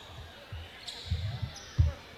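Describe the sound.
A basketball is dribbled on a court before a free throw during a game, giving a few dull, low bounces at an uneven pace, the last one the loudest.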